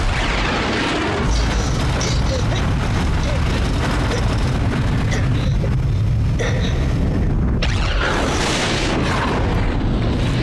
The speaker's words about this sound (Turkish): Vakit yok. Bombayı bırakıyorum. Kahretsin, vuramadım.